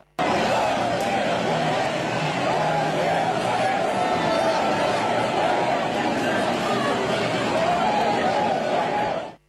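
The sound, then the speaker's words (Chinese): Roadside crowd of overseas Chinese and students waits to welcome a visiting president, waving Chinese and US flags; a dense, uniform babble of many voices holds steady before cutting off abruptly at the end. “习近平乘车从机场赴下榻饭店途中，华侨华人和留学生代表聚集在道路两旁，挥舞中美两国国旗，热烈欢迎习近平主席到访。”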